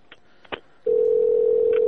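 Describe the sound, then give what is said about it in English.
After a telephone line disconnects, a dial tone comes on. A few faint clicks come first, then a loud, steady, continuous tone holds unbroken to the end. “What's wrong with the phone? It's messed up.”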